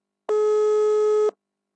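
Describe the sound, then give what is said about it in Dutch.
A telephone ringing tone for an outgoing call: one steady, clean, mid-pitched tone lasting about a second, alone, with silence before and after. “gaan we meteen even iemand bellen”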